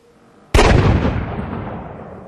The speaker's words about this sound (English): In the enveloping stillness, they all heard the sudden, unmistakable noise of a blaster.